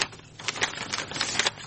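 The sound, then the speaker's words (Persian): Pages of a fortune-teller's book are leafed through quickly, giving a dense run of dry papery rustles and crackles with small flicks close together. “باش که من کتاب ورق بزنم.”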